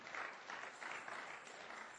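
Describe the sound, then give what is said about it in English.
Faint hand clapping from a church audience: quiet, dense applause that swells and eases in gentle surges throughout. “Can somebody give the Lord a hand clap for that?”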